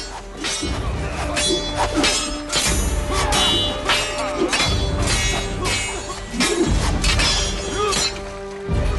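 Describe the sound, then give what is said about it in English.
A sword drawn and swung in a fight, with many sharp metallic hits, whacks and crashing impacts in quick succession, loud and dense across the whole stretch. “He whips his sword out. He swings at Einan.”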